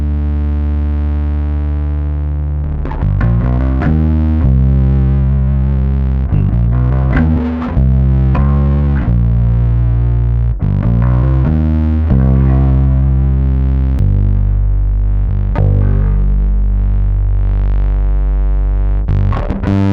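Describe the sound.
Heavily distorted bass guitar played through an effects pedal with the dirt control turned all the way up, giving a series of loud, sustained low notes with a gritty, buzzing edge, each changing pitch in turn, with no talking.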